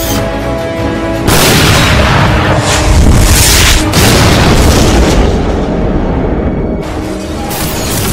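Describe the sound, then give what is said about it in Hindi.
A weapon firing at a target and exploding: a sudden loud blast that rolls on as a heavy, broad, sustained roar for several seconds before easing back to a quieter background. “दोबारा fire करेंगे।”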